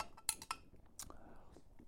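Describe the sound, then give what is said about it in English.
A spoon clinking in a cup of hot chocolate: a few faint, bright metallic chinks, two close together and then one more, with soft handling noise between them. “All right, I had to take the spoon out of my cup. It was getting in my way.”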